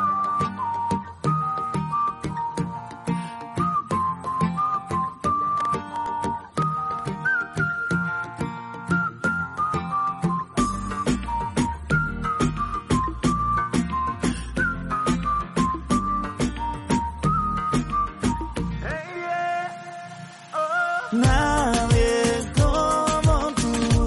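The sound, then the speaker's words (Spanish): People whistling a melody over a song's backing track: a bright tune above steady beats and instruments, with a short break near the end before the full band returns. “Silbamos.”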